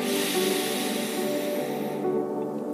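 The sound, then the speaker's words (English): A person breathing in deeply during a guided breathing exercise: one long, steady, airy inhale that holds for about two seconds and then fades away. “Let's go ahead and breathe in together. Breathe out. Breathe in.”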